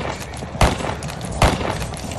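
Guns fire at fortifications during a battle against an attacking army. Two heavy booming shots stand out above a constant, dense rumble of battle noise.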